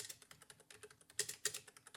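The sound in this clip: Quick typing on a computer keyboard as a search is entered: a quiet, steady run of many light key clicks, with a couple of harder strokes near the middle.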